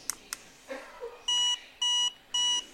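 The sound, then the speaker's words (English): An accessible power bank from the AT Guys beeps to show its charge level: three identical high-pitched electronic tones, each held briefly, evenly spaced and clear over near silence. “like the older one, four beeps in this case means I've got four times charging.”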